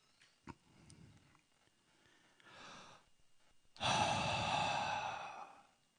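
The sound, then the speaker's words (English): A person breathes out onto a group of people as a demonstration: a soft breath comes first, then one long, loud, airy exhale lasting about two seconds, with no talk over it. “He breathes on them, and he says, "Receive the Holy Spirit."”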